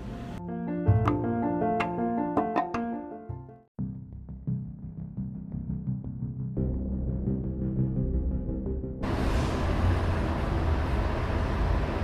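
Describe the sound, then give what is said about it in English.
Street traffic noise builds into a steady rumbling wash, and a broader, hissing roar fills the last few seconds. “Street noises, that means usually that there's something coming up on the street.”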